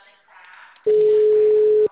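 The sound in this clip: A single steady telephone tone sounds on a call, loud and even in pitch for about a second, after a short stretch of faint muffled voice.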